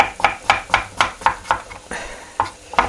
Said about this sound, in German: den Kürbis in nicht zu dicke, nicht zu dünne Stücke.